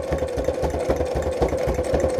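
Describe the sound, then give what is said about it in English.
A sewing machine runs a straight stitch with a steady, rapid mechanical chatter over a constant motor hum. The pulses keep an even rhythm throughout, with no voices. “Can you see? All right, sewing. Feeling good about it. Holding it steady.”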